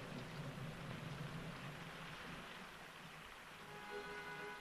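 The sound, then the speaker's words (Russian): Steady rain with large raindrops running down window glass, a continuous soft hiss and patter that stays fairly faint and even throughout, with no voices. “По стеклу стекают крупные капли дождя.”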